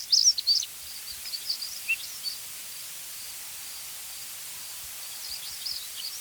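Faint, thin chirping song of stonechats, two or three birds beside a field; a cluster of short, scratchy high phrases comes at the start, then scattered light notes over a steady hiss.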